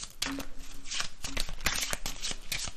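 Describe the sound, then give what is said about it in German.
A deck of question cards is shuffled during a conversation game: continuous papery rustling and quick flicking as the cards are mixed by hand, with a faint voice briefly underneath. “Gut, dann mische ich mal durch und dann kann ich ganz spontan eine fallen lassen.”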